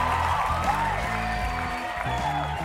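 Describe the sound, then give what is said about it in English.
A studio audience applauds to welcome guests onto a show. The clapping is a steady, even wash over low stepped music. “Put your hands together and let's welcome Kevin and Temsala to today's show.”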